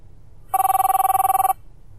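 A telephone rings in one loud, steady burst of rapid trilling about a second long, with a constant pitch over a quiet background.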